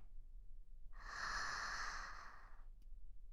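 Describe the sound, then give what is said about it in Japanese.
A slow, deep inhale, one soft breathy rush lasting under two seconds, quiet and alone, with silence before and after. “ゆっくり息を吸って、”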